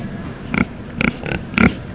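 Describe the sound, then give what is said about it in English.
Short snorting grunts come from chunky black and pink pigs snuffling around their pens at a livestock show. A few brief bursts rise over a steady low background noise. “Elvis, Priscilla, and Hulk snuffle around their pens. The chunky black and pink pigs belong to 15-year-old Jordan Gosney from Pendleton County.”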